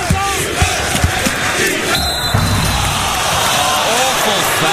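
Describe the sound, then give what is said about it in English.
Basketball crowd chanting defense as a sound effect: a dense, loud roar of many voices that keeps going through the whole stretch. “And we do have a sound effect for this one, I believe. It's somewhere. Defense.”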